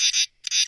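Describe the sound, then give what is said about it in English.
Common true katydid calling: two loud, raspy, high-pitched buzzing bursts of rapid pulses, separated by a short quiet gap. “Once again, common true katydid”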